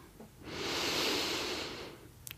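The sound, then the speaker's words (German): A deep breath drawn in through the nose while sitting at the end of a guided relaxation, a single soft airy hiss that swells and then fades, lasting about a second and a half with no other sound. “Atme noch einmal tief ein in die Nase”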